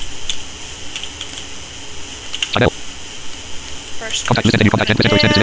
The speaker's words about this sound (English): First, I'm going to type my sister's name in here.